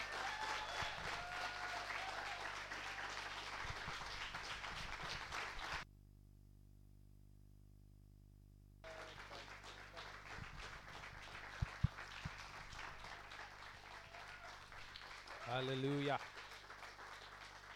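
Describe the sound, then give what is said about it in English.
A church audience applauding: steady, dense clapping that drops out briefly to near silence, then resumes with voices mixed in and one voice ringing out near the end. “So we can stand and we can put our hands together as we welcome to the front Pastor Nicholas Michaels.”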